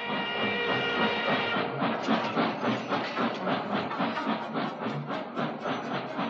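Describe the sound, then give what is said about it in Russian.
A long, heavy train setting off along the rails, with a dense, steady hiss like steam and a rhythmic rumbling clatter that keeps going throughout. “Поезд тронулся, увозя с собой отца Федора”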